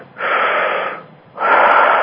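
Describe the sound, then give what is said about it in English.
A group of people takes a deep breath right after a neck correction. It sounds like two long, airy, wheezy rushes of breath, loud and steady, separated by a brief pause, with no talking. “Take a deep breath, please.”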